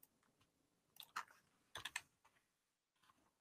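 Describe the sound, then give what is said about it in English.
Quiet typing on a computer keyboard, with soft scattered keystrokes and two brief clusters of sharper, quicker clicks before the tapping fades out, then a few light taps near the end. “So let me type these in because we're going to need it real quick.”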